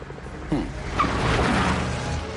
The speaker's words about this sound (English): steps on the gas, but the jeep doesn't move an inch. It's not in gear.